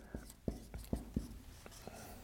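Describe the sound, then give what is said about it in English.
A pen scratches across a board in a few short, faint strokes, each a quick dry scrape with small pauses between them. “So let me write that up there real quick.”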